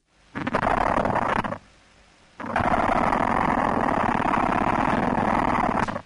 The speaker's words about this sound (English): So that's it scraping the back end of the abdomen against itself. So that's the queen.